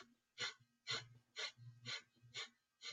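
Forceful breaths exhaled sharply through the nose in a breath-of-fire exercise: six loud, rhythmic bursts of airy hiss, about two per second, with brief quiet between each.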